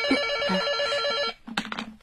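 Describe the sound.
A telephone bell rings loudly and steadily with a bright, repeating tone, then cuts off partway through, followed by a few brief, louder clattering noises.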